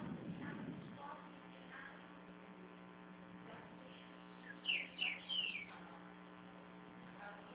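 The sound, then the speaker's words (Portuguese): A small pet bird sings in a few short, high chirps over a steady electrical hum, faint against the background, on what sounds like a phone line. “Nossa, tem um passarinho cantando a beça aí.”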